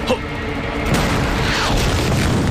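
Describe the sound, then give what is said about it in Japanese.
Artillery shells a narrow mountain summit in a war scene: heavy, rumbling booms that roll together into a continuous, loud, dense barrage with no clear gaps. “八路が砲撃に耐えかねて山頂まで引きました。 山頂は場所が狭い。これは自殺行為だ。歩兵伝えろ。山頂が平らになるまで撃て。”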